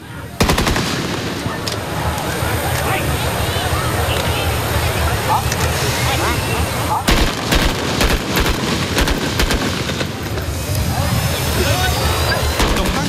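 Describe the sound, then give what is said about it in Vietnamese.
Sustained gunfire from soldiers during a shooting drill in varied firing positions: dense, rapid bursts of sharp shots packed over a continuous noisy bed for about 13 seconds, with barely any pause. “cán bộ chiến sĩ lập tức triển khai đội hình chiến đấu, thực hiện nhiều tư thế bắn khác nhau phù hợp với từng điều kiện địa hình và hướng mục tiêu.”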